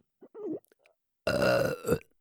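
A long, loud belch lasting under a second, preceded by a few faint, short vocal sounds.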